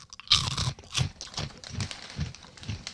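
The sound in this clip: Crunching and chewing of a crisp snack made from wheat flour and cassava rather than corn. A run of rhythmic, loud crunches repeats steadily, each bite crackling sharply with a dull thump underneath.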